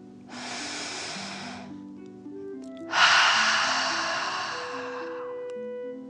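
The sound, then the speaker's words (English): Two deep breaths over calm background music with sustained tones: a steady, airy breath, a short pause, then a longer, louder breathy rush that slowly fades while the music continues. “Let's take 3 more deep dragon breaths as you continue to float. Deep breath in and out.”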